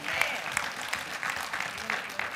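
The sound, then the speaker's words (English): A church audience claps for the Lord during a sermon. Scattered, loosely rhythmic hand claps stand out over a low murmur of voices, at moderate loudness. “Give the Lord a hand clap for that one.”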